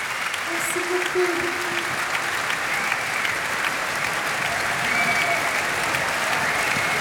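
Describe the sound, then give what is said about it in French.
A standing ovation from a concert audience in Marciac for a tearful performer: loud, sustained applause that stays dense for the whole stretch, with faint crowd voices mixed in. “Et le public marciacois attentif, en fait, lui fait maintenant une standing ovation.”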